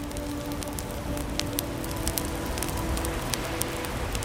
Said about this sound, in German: Flackern der Flammen wirkt gemütlich und tröstend zugleich.